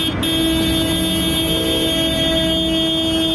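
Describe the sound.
Car horns blare over traffic during an opposition motorcade protest in Yerevan demanding the prime minister's resignation. The sustained horn tones hold loud and continuous over a dense vehicle rumble.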